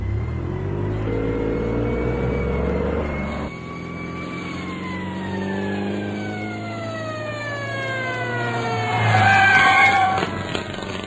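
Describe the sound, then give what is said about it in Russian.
An arriving ambulance: a car engine's broad hum under wailing siren tones that glide steadily downward in pitch, the sound swelling louder toward the end. “Приехала скорая помощь, но было уже поздно.”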